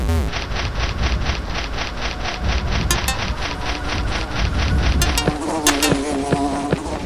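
Wasps buzz in a video game as a loud, rapidly pulsing insect drone, followed near the end by a few short, bright electronic tones.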